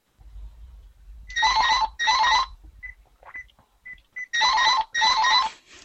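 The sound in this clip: A phone rings in long trilling bursts, two close together, a gap of short chirps, then two more, as the ringer refuses to shut off; the tones are bright and loud.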